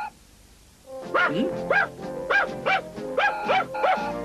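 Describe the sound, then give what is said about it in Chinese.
A dog barking in a 1987 Cantonese cartoon: many quick, high-pitched yips, often in pairs, at a steady rhythm, loud and with no talk. “唔好吠啊！唔好吠！”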